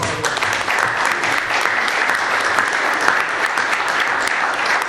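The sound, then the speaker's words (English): A round of applause at a board meeting, loud and sustained, the dense clapping holding an even level for the whole stretch without pauses. “And I'd like to give Harold and his team a round of applause.”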